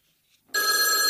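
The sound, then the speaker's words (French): A telephone bell rings in one loud, steady, continuous burst after a brief near-silent start, with no voices. “Ah oui, le téléphone. Quelqu'un prend la communication?”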